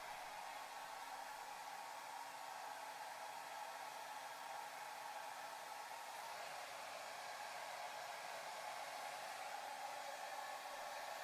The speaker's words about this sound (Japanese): 毛の流れもしっかりさせつつ、乾かしてと。